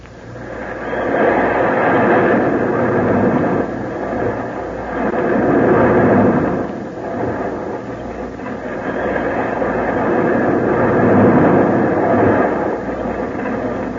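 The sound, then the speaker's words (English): A roller coaster ride on the Whirlwind: a steady, heavy rumble and rattle of cars running along the track. It swells and eases in slow waves for the whole stretch, with no voices. “And the next thing I want to know is how to take a ride on the roller coaster. Denny and I are going for a trip on the Whirlwind.”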